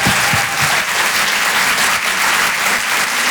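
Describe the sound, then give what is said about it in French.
Applause from an audience at a live comedy show in a Paris theatre: dense, loud, continuous clapping that holds steady throughout, with no voices standing out. “Je vous demande de faire un maximum de bruit, s'il vous plaît, pour Donnell Jacksman.”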